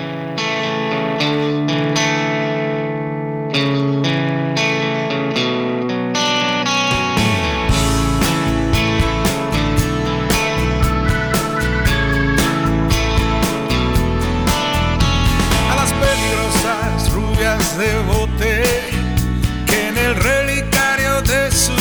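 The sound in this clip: A mid-tempo rock song with distorted electric guitar. It opens with a softer, sustained intro, then the full band with drums kicks in about a third of the way through, staying loud and steady to the end.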